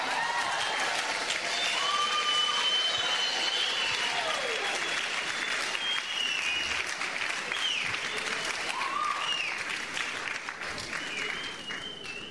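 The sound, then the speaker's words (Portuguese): A church audience stands and applauds, loud, dense clapping that runs steadily through the whole stretch and eases off slightly toward the end. “Stand to your feet and put your hands together. Fica de pé uma salva de palmas.”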